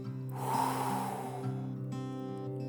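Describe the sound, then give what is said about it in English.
A deep breath drawn in through the nose and let out through the mouth during a relaxation exercise: a long, soft, airy rush over a steady low hum, fading toward the end. “Now I want you to draw another deep breath, this time in through your nose and out through your mouth.”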